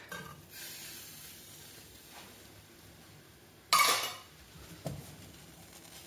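A spoon stirs a pot of North Macedonian chicken soup seasoned with vegetta and thinned with water, mostly faint scraping with a couple of louder metallic clinks against the pot.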